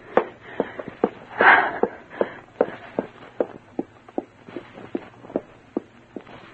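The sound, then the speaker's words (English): Footsteps of a girl hurrying down a hall: many quick, crisp steps in a brisk, fairly regular rhythm, each a sharp tap with a soft shuffle between some of them. “A girl leaves Sam's room, passes close to you as she hurries down the hall.”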